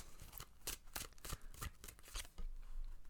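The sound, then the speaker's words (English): Papery riffling and soft slaps of a tarot deck being shuffled and a card drawn, a quick run of many short bursts at an even, busy pace. “So let's go ahead and pull a tarot card for the week.”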